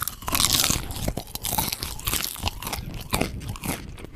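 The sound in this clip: Chewing of four popcorn kernels at once, buttery, salty and crisp, giving many dense crunches and grinding chews in a steady irregular rhythm, close and loud with no talk.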